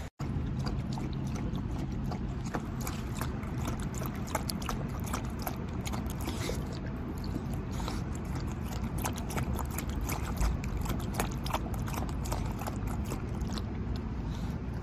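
A Hokkaido dog lapping water: a long, steady run of many quick, rhythmic clicks and slurps over a constant noise bed, with no break until the end.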